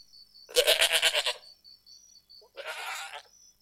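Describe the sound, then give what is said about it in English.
A goat bleats twice: first a loud, wavering, pulsing bleat lasting close to a second, then after a pause a shorter, quieter bleat. A faint steady high tone sounds in the background. “Kambing. Kambing. Goat. Goat.”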